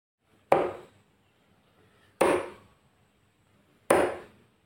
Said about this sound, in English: that was the sound of me throwing darts on a dartboard